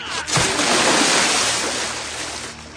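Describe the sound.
Splash of a person losing their footing and falling backward into water, a loud rushing burst of churning water that holds steady and slowly eases off.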